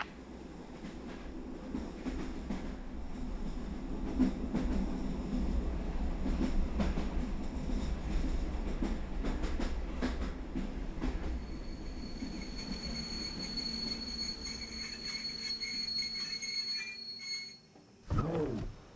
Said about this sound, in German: obwohl das bei dem ganzen Gerumpel und Geratter im Zug eigentlich gar nicht möglich ist.